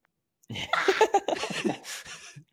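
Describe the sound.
A voice imitates a dog snoring with one breathy, snorting run of rough, rattling vocal noise lasting about two seconds, fairly quiet.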